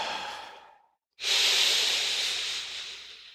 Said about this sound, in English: I want you to take a breath in your nose